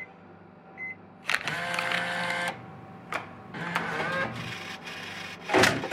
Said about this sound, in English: Don't you love it when the vending machine gives you 2 for the price of 1?